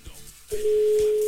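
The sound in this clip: Ringback tone on an outgoing telephone call: after a brief moment of quiet line noise, a single steady pure tone starts and holds to the end.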